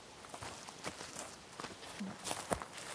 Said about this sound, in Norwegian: Og nå går vi over det her berget. Selle Skojaberget.